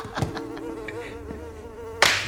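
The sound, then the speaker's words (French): Housefly buzzing in a steady, wavering drone, broken by a few faint taps and then a sudden loud, sharp hit near the end. “Il fallait attendre qu'il tue la mouche.”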